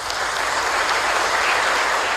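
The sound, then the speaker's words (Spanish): The whole hall applauds at the signing of the Accession Treaty to the European Communities. The clapping is a loud, dense and unbroken roar. “Aplausos de toda la sala recibieron la firma del Tratado de Adhesión, llevada a cabo por Fernando Morán, ministro de Asuntos Exteriores, Manuel Marín, secretario de Estado para las Relaciones Europeas, y el presidente del Gobierno”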